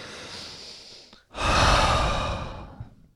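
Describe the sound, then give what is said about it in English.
A deep breath taken alone: a steady, airy inhale, a brief pause, then a longer, louder breathy exhale that slowly fades. “this is a perfect opportunity to take a breath, shall we?”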